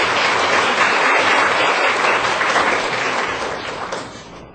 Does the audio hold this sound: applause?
yes